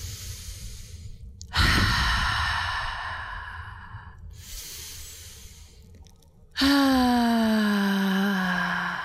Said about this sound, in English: I'd like you to take a deep breath.